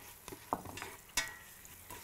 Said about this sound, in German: Wir rösten die Gewürze jetzt noch mit den Zwiebeln hier an.